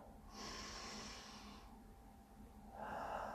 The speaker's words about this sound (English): Let me take a breath.